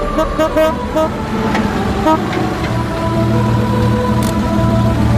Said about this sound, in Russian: Через толпу пробирается два ретро-автомобиля.